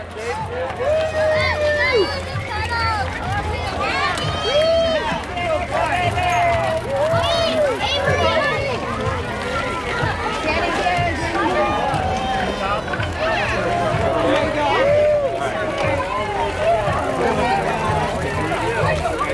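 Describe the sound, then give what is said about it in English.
Crowd noise from a Fourth of July bike parade in Redstone: a dense, continuous babble of many overlapping voices, with shouts and calls rising above the steady hubbub throughout. “Sounds from the 4th of July bike parade in Redstone.”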